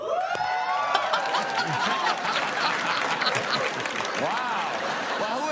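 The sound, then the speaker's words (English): Studio audience on Conan O'Brien's late-night show in 2014 cheering and applauding, with dense steady clapping mixed with whoops and shouts throughout. “Euphoria from the audience. That's Conan O'Brien from 2014.”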